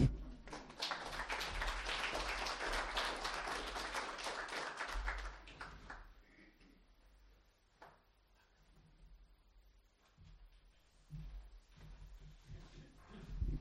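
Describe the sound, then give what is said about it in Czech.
An audience applauds after thanks are given for the past year. The dense burst of clapping lasts about five seconds and stops abruptly, leaving quieter scattered taps and faint rustling. “Takže díky Bohu za ten rok a můžeme mu zatleskat.”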